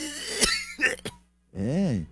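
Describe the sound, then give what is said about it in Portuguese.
A person imitates an old man's cough, giving a few short, raspy vocal coughs followed by a drawn-out, groaning voiced sound. “Ele já tá andando meio tossindão, assim, ó.”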